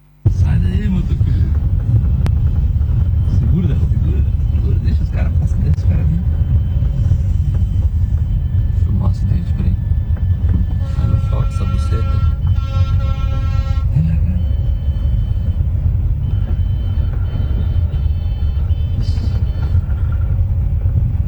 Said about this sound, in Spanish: Un camión sufrió una falla en el sistema de frenos mientras circulaba por el lugar y comenzó a desplazarse marcha atrás sin control.